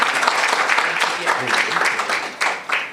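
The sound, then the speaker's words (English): Audience applause for retiring board members at a world affairs council gathering: dense, steady clapping from many hands throughout, with talking mixed in over it. “A round of applause for our retiring board members.”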